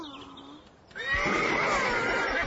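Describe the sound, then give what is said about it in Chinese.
A horse on a farm neighs loudly: a long, quivering whinny with shaky high harmonics that holds strong for over a second, following a softer tonal opening. “哦，是啊， 那是马。他以前很不听话，但农场主现在到哪儿都骑着他。”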